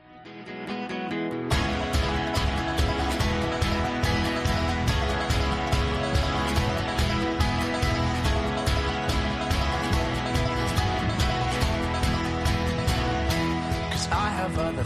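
A song plays on the radio, a quiet opening that gives way after about a second and a half to full, dense instrumentation with a steady pulse of beats that holds at an even level.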